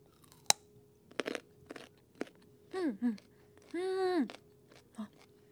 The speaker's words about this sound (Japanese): 人参ちょっとそのままかじってみようかなと思います。